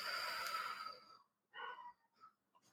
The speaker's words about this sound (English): So in through the nose. And exhale out through the mouth.